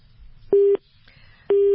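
Telephone busy signal as a call to a radio listener fails to connect: two loud, steady mid-pitched beeps, each about a quarter second long and spaced roughly a second apart, over a faint background hum.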